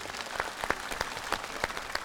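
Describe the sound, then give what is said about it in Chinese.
Audience applause after a dance performance on stage: a fairly soft, continuous patter of many hands, with a few sharper claps standing out. “我们掌声谢谢清新的演出， 谢谢老师们。”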